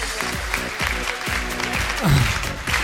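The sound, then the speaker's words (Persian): An audience applauds itself at a talk, a dense, steady wash of clapping with a voice briefly audible over it. “خودتون رو تشویق کنی”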